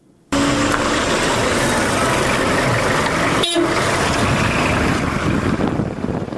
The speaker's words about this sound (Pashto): مفصل راپور چمتو کړی دی چې په بولان کې د یو موټر په حرکت پیلېږي